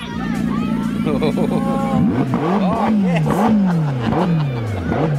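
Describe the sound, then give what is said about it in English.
A McLaren sports car engine revving in a driveway, its loud note sweeping up and down through several repeated revs, with a busy background of voices. “I can hear it revving. Here it is. We're in the Zagami McLaren.”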